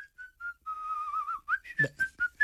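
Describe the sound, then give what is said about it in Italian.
Someone whistles cheerfully in a lively, wavering tune. A few short notes lead into a longer warbling note, then a quick run of clipped, higher notes. “qualcuno che fischia”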